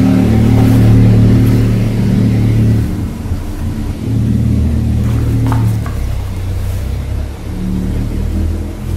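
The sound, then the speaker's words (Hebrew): Military jeep engine rumbling loudly in a steady, low drone that swells slightly as it revs, with no voices. “זה רעש של ג'יפ צבאי”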